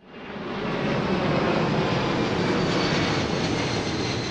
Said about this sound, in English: That might sound like an airport runway, but it's actually a leafy residential neighborhood in Memphis called Cooper Young, and it's right in the flight path of Memphis International, home of FedEx.